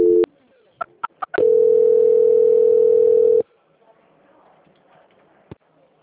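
A telephone tone plays as a call is transferred to another line. A short tone comes first, then a few quick clicks, then a steady continuous tone lasting about two seconds. Faint line noise follows.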